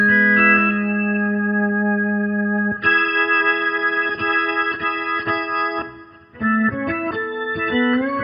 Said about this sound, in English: Let's hear a little bit of that chorus.